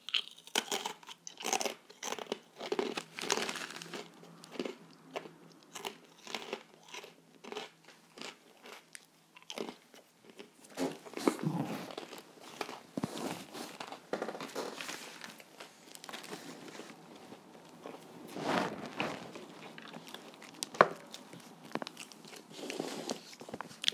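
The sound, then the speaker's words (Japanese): Crunchy rice crackers being bitten and chewed, giving many crisp, brittle crunches in an uneven rhythm. The sound is quiet and close and continues steadily with no talking. “この枠ちょっと、せんべい食べて、うん、口が開いたら喋ります。”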